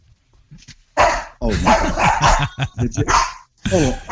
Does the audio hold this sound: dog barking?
yes